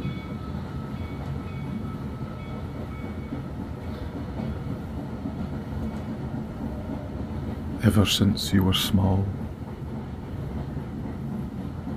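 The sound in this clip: Steady rumble of the Hogwarts Express steam train runs under a narrating voice, with a brief louder, brighter burst near the end.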